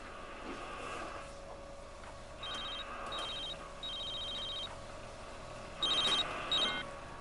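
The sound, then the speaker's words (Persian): Faint, high electronic trills of a telephone ringing on an outgoing call come in a few short bursts with gaps between them, over a low steady hiss. “خانم عطا رو برام بگیر.”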